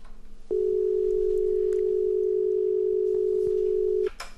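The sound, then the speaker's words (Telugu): Telephone line tone on a call that fails to connect: one steady, unbroken pitched hum that holds for about three and a half seconds, then cuts off abruptly into quiet. “మన next caller line కలవలేదనుకుంటా. No problem, keep trying.”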